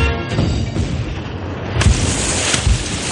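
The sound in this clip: A sailing warship fires its cannons at night in a film battle scene, with a few deep, heavy booms rising out of a dense, continuous roar of noise.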